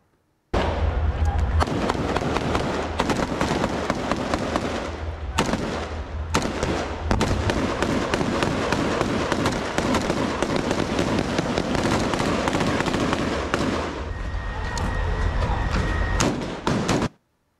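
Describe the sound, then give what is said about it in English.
Gunfire from ground troops moving through buildings and shooting at Hamas in Gaza: loud, dense bursts of rapid shots with a few brief pauses, hammering almost continuously. “It's also released a video of ground troops moving through buildings shooting at Hamas in Gaza.”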